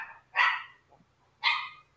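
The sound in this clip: Two sharp dog barks, spaced about a second apart, with near silence between them and no talk.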